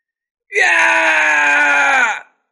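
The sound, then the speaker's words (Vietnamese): A man's single long scream of pain as a punch strikes him and hurls him through the air in a martial battle. The harsh, strained cry is loud and sustained for nearly two seconds, then cuts off. “Tử Thiên Đô hét thảm một tiếng, thân hình bay xéo ra ngoài”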